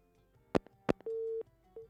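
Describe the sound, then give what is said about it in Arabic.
A dropped phone call: two sharp clicks, then a busy tone with one full steady mid-pitched beep and the start of a second after a short gap. “انقطع الاتصال، نعاود الاتصال، خلي يعاودون الاتصال.”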